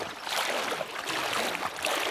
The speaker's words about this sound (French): Pour nous rendre chez la voisine, il faut se mouiller jusqu'à mi-cuisse. 70 cm d'eau par endroit dans la rue.